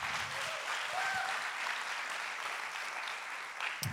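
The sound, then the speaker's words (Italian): An audience at a Sunday church gathering applauds with steady, even clapping that lasts about four seconds and holds a moderate, fairly faint level throughout. “Facciamo un applauso, sono qua.”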